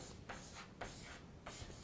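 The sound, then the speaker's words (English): Something is being written down with three short, scratchy strokes, soft rasping bursts separated by brief pauses. “So I write down here”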